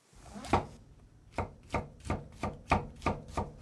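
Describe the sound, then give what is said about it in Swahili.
A knife chops mushroom caps into thin slices on a board, eight crisp, evenly spaced strikes ringing out alone at a brisk rhythm. “kisha katakata sehemu ya juu mara 2 na kila kipande ukikatekate vipande vimbamba vimbamba.”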